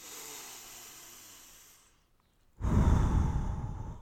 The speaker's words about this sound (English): Know that life comes from the sound of your breath.